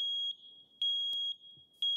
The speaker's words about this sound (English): a CO or smoke detector that beeps every minute or so is usually low on batteries. But in an emergency, those beeps would be nonstop.